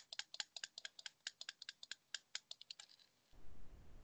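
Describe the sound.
Rapid pistol fire in a video game, heard as many sharp, dry clicks in quick, slightly uneven succession, ending in a burst of low rumbling noise.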